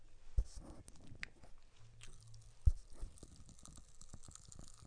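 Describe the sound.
Pop Rocks candy crackles faintly while being eaten, with scattered tiny snaps and soft chewing. A couple of sharper clicks stand out.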